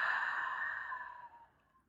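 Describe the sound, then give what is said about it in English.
A deep, sighing breath, drawn in through the nose and let out through the mouth, during a breathing exercise. It is one long, soft, airy breath that starts full and gradually fades away, with no talking over it. “Again, inhale through the nose. Exhale through the mouth.”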